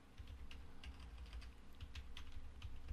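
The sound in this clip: Faint clicking at a computer: many quick, irregular tick-like taps resembling mouse and key presses over a low, steady rumble.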